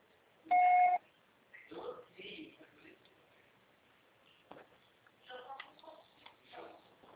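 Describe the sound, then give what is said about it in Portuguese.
A voicemail beep sounds after the recorded greeting: a single loud, steady tone lasting about half a second, followed by quieter, muffled talk. “Grave seu recado. O processador será tarifado após o sinal.”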